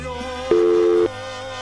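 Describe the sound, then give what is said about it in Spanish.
A telephone busy tone after a dropped call sounds as a single steady mid-pitched beep of about half a second over a low line hum. “Se le cortó la llamada a la hermanita.”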